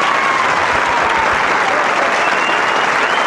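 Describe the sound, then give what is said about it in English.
A baseball stadium crowd applauds and roars in a dense, loud, unbroken wash of clapping and cheering that stays steady throughout. “We played around with music. Played around with crowd noises.”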